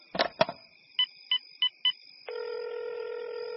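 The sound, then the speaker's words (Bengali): A telephone call is placed: two clicks, then four short electronic beeps, then a steady electronic ringing tone that holds to the end, with no voices. “অগত্যা বিজ্ঞানী চন্দ্রকান্তকে phone করলাম।”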